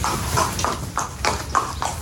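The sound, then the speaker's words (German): Racehorse hooves clop in a trainer's stable in Cologne: a galloping racehorse steps in an even walking rhythm, about six hoofbeats in two seconds over a dense, noisy background. “86 Galopprennpferde werden aktuell im Stall von Trainer Peter Schürgen in Köln trainiert.”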